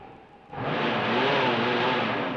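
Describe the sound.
Car engine running in a car whose fender is cutting into the wheel. A quiet idle swells into a loud, sustained revving roar with a steady whir.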